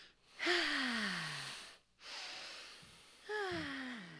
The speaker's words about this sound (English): And now, a few deep breaths before we rejoin the world.